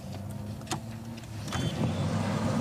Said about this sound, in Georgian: გაიცანით, ფუფუნების საგანი Rolls-Royce.